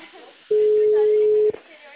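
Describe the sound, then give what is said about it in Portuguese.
A telephone ringback tone on an outgoing call, a single steady mid-pitched beep lasting about one second over a narrow phone line, with faint background noise before and after. “Ligando, tá chamando.”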